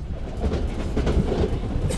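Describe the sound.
A commuter train rolls along its rails with a steady rumble and a faint rhythmic clickety-clack, holding an even, continuous loudness throughout.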